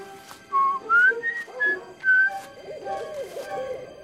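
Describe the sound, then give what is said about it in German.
A man whistles alone: a short tune of several clear, clean notes that shift between higher and lower pitches, fairly loud, with brief gaps between phrases. “Jetzt pfeift er.”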